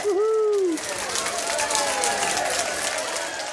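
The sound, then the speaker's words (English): Canned studio audience applause played as a sound effect from a sound rig, a steady crowd wash of clapping, opening with a brief whooping tone over it. “crank the studio audience up there again.”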